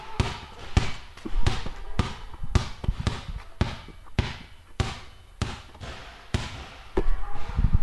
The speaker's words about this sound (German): Das war ein Basketball.